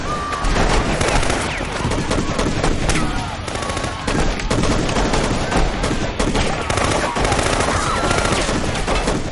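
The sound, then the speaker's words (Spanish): Gunfire aimed at churchgoers in a church during a violent thriller film scene: loud, dense bursts of rapid shots crackle almost without pause, overlapping into a continuous volley throughout. “Disparan contra los feligreses.”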